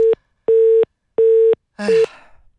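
Telephone tone after the other party hangs up a call: three short, evenly spaced beeps at one steady pitch, then a fourth beep smeared by a burst of crackling noise that fades out.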